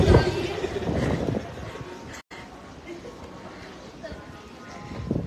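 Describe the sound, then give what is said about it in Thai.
Strong wind blowing outdoors, a rough, rumbling buffeting that swells and eases, under a person talking throughout. “ลมแรงมากดูดิหัวฟูโอ้โหอะไรแล้วข้างในนี่ก็มีลมด้วย”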